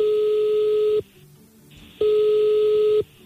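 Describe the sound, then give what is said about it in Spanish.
Ringback tone of a telephone call being placed: two steady, mid-pitched electronic tones, each about a second long, separated by a second of near silence, loud and without voices. “Le vamos a marcar, carnal.”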